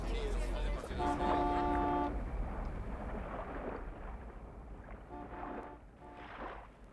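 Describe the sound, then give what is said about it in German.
A car horn honks a few times, first one sustained blast and later shorter toots, over a steady rumbling, wind-like background noise. “Die Autohupe haben wir gehört.”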